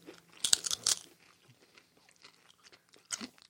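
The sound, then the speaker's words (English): Crunching of a nacho chip loaded with dip, a few loud crisp bites close together near the start, then quieter chewing and one more crunch toward the end. “Go on, get in there. Try and get this on the nacho.”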